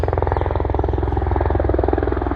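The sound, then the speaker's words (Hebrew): A helicopter flies overhead with a loud, steady, rapid thudding of rotor blades over a low engine drone, the rhythmic beat continuing throughout. “עכשיו יש הליקופטר, שהוא כנראה גם מחזק אותנו, כי הוא נותן לנו לנשום, תנשמו.”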